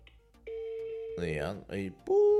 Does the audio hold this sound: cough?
no